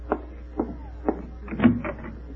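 A door is opened to answer a visitor: a few soft, evenly spaced thumps are followed by a louder clunk and a brief rattle, all faint with no voices.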